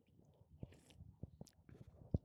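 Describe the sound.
Chewing on a huckleberry treat: a few soft, crunchy bites and squishy chews, faint and irregular, with no talking.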